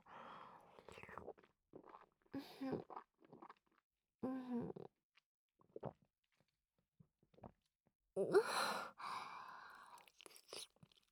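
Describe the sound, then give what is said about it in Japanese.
Wet chewing and grinding sounds from inside a mouth come in short, irregular bursts with quiet gaps between them. Soft breathy sounds appear between the bursts. “お口の中で。いっぱい噛んで、すりつぶして。”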